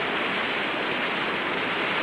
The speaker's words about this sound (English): Before them, a waterfall plunges down the escarpment into a shallow stream.